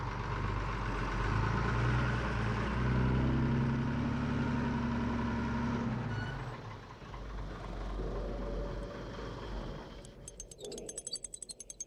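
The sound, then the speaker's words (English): A tanker truck engine gives a deep, steady low rumble for about six seconds, then eases down to a quieter, rougher mechanical running sound. “Okay, so who's going to drive the tanker? I am.”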